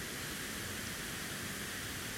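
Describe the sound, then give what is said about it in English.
Water flowing out of a cave makes a steady, faint, even rush, a constant wash of noise with no separate splashes or other events. “Ahead of me, about 100 yards or so, is a cave from which all this water is coming.”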